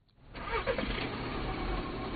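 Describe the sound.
A car engine cranks, catches and settles into a steady mid-pitched idle, loud and continuous with no talk.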